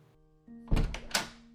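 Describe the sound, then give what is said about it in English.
A front door is unlocked with two dull clunks from the lock mechanism, heard over a faint steady hum. “Upon coming out of her thoughts, Olivia begins unlocking the front door.”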